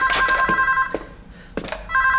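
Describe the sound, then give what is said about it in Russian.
A telephone rings in an office with bright, electronic ringing bursts that stop midway and then return, with a few knocks and clatters between the rings. “отвечает на телефонный звонок.”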